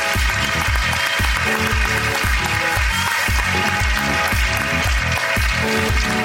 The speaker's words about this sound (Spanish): Un aplauso para ella.